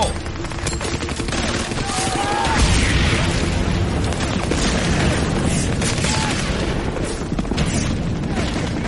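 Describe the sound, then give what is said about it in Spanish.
A Bangalore torpedo, a long tube packed with powerful charges, exploding during the D-Day Normandy invasion: a heavy booming swell about a third of the way in, within a continuous rattle of gunfire and rumbling battle noise. “El torpedo Bangalore tenía un tubo largo con cargas enormemente eficaces en su interior. Producía un estruendo tremendo.”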